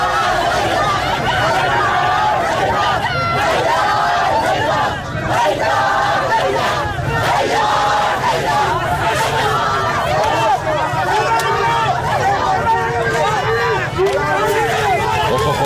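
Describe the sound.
Loud, continuous crowd uproar erupts in a cinema at the end of a film screening, with dense overlapping voices and shouting that never lets up.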